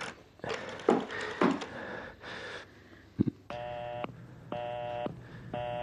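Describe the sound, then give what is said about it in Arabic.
Telephone dialing followed by a busy signal: a few irregular dialing sounds and clicks, then three evenly spaced, steady electronic tone pulses, fairly quiet, with no talking. “ايه، ما حدش رد عليك؟ التليفون مشغول.”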